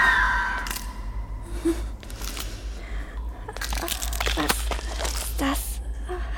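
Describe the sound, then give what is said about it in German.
Small, cleanly gnawed children's skulls crunch and shatter underfoot with each step, brittle cracking bursts that bunch together later on, with vocal sounds heard alongside. “Der Boden zu ihren Füßen war übersät mit Kinderknochen. Kleine, sauber abgenagte Schädel zerbarsten unter jedem ihrer Schritte.”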